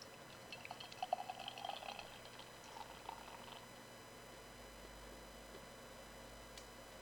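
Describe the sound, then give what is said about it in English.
An IPA beer being poured into a tulip glass gives a faint, bubbly fizzing that builds over the first few seconds. A soft steady hiss follows and trails off into near quiet. “So crack her open and give her a pour.”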